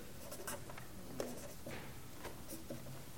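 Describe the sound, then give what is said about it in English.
A pen scratches as an address is written on an envelope, with faint, uneven strokes and short scrapes that continue throughout. “So that's the address. Away. I don't have a stamp. I'm too cheap. So I'm going to draw one on there.”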